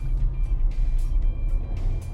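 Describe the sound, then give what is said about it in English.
Car engine revving at high RPM while stuck in too low a gear, a loud, steady, strained rumble that barely lets up across the short stretch. “You're not in the right gear. So you gotta shift up. Your RPMs are getting high.”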